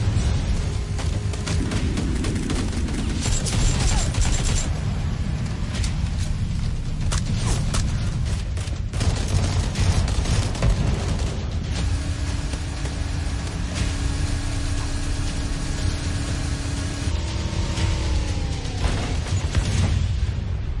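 Gunfire and explosions in a battle royale shooter video game: rapid sharp bursts of shots crowd the first half over a steady engine-like rumble, then the firing thins while a sustained tone hums near the end.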